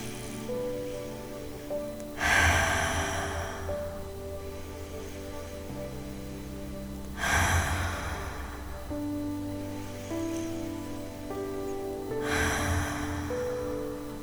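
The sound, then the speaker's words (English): Deep cleansing breaths during a guided meditation: three slow, loud, airy breaths spaced evenly apart over a soft, sustained musical drone. “we're going to start this practice with a couple of deep and cleansing breaths.”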